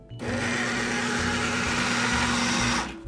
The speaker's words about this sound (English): The food processor will be running on low as we add 1 tablespoon at a time.